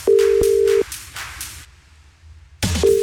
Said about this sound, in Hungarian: Hát persze, hogy a leggyorsabb üzenet küldő. Már is őt hívom.